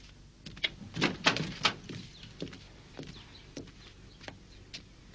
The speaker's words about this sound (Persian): میرم درو باز بکنم.